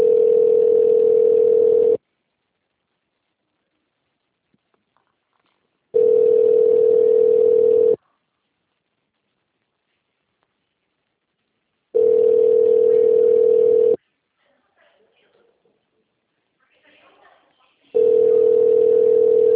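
A telephone call's connecting ringback tone plays as a series of long, steady, evenly spaced beeps separated by silence. The last beep is cut off.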